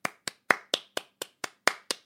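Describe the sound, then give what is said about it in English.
Nine sharp, dry hand claps from a single person, evenly spaced in a quick, steady rhythm, each one loud and crisp with nothing else heard between them. “Applause!”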